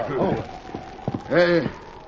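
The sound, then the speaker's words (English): Hoofbeats of horses ridden over a snow-covered range in a snowstorm and reined to a halt: a few soft, muffled thuds mixed with a brief voice-like call, moderately loud. “The snowstorm continued unabated as the Lone Ranger with Tonto and Jed Hawkins rode over the bleak, snow-covered range. After searching for almost an hour, they reined to a halt.”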